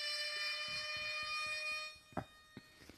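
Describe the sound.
An electronic alarm goes off with a loud, steady, shrill tone for about two seconds. It then cuts out, leaving a few short knocks and thuds.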